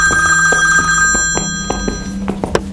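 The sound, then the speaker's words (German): A telephone rings with steady electronic tones that hold throughout, and a few soft knocks and clicks fall in the second half. “Inspektor, ein Anruf für Sie.”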